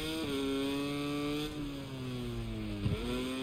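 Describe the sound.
A motorcycle engine drones steadily under load, its rich harmonic hum holding an even pitch with small dips partway through and near the end, loud and continuous throughout.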